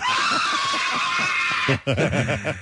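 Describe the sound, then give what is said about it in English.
A man gives a long, loud, high film scream with a tarantula on his face. It holds steadily for well over a second, then breaks off into a short burst of voice or laughter. “That is a great scream, and it's from Home Alone, of course. When the tarantula is on his face,”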